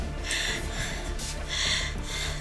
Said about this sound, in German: Und jetzt atmen. Ein. Und aus.